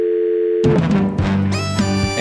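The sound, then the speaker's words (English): A telephone dial tone after a hang-up in a produced comedy sketch: a steady, buzzing tone holds for about half a second, then cuts off into a loud burst of mixed sound followed by sustained tones. “He's a techno guy, so he put in the dial tone for the hang-up.”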